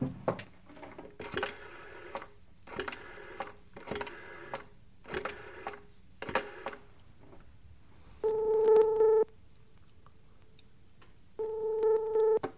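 Telephone call being placed: several short clicking bursts of dialing, then two long ringing tones with a silent pause between them.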